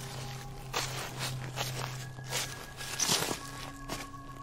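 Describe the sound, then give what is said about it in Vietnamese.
Footsteps crunching on dry leaves as someone walks around a house: a series of soft, irregular crackling steps over a steady low hum, with no talk. “chỉ còn lại những tiếng chân đi sột soạt dẫm lên lá khô đang đi xung quanh nhà.”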